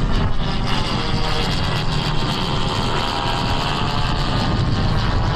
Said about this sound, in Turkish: Akıncı Tekirdağ Çorlu'daki pistten bu kez Roketsan'la STM yapımı Alpagut mühimmatıyla havalandı.